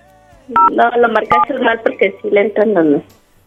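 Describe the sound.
Touch-tone keypad beeps as a telephone number is dialed, with a few short paired tones sounding under continuous conversation.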